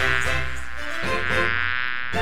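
Buzzing bees sound effect, a dense continuous insect drone of layered, wavering tones that stays loud and steady throughout, with a brief dip and swell near the end.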